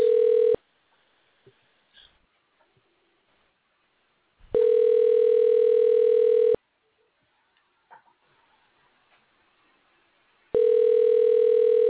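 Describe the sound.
Telephone tone on an outgoing call: a steady, loud, even-pitched tone sounds in three long bursts separated by stretches of near silence.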